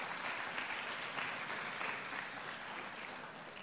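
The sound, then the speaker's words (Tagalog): An audience at a church service applauds in praise of the Lord with dense, steady clapping. The applause is fairly faint and continuous throughout, and no voices stand out. “Palakpakan natin ang Panginoon dahil tayo'y tagapagmana.”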